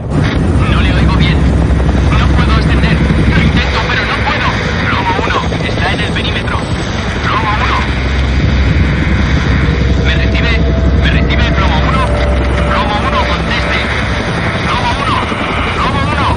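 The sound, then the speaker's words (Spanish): Steady, heavy drone of a helicopter flying out of a smoke column above a burning nuclear reactor. The rotor noise is loud and continuous throughout, with voices talking over it. “El helicóptero sale de la columna de humo, se golpea contra el cable de una grúa y cae con el rotor destrozado.”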